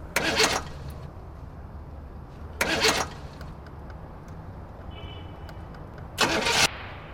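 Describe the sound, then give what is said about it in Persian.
A car engine cranks but fails to start: three short bursts of starter whirring separated by long pauses of quiet background noise, with no engine catching. “دایی موشک میگفتی همینه؟ آره استارت نمیخوره. استارت بخوره عین موشک تا ته تهران میره.”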